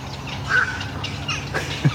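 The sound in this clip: Birds calling overhead at a nesting colony where young are being fed: a few short, sharp calls, one with a clear whistled tone, rise above a steady low rumble.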